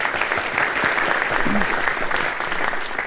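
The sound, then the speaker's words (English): An evening audience claps for trustees and council members. Loud, dense applause runs unbroken from start to finish. “all our Chairman's Council members in the audience tonight for all their great work and support. Let's give them a hand, too.”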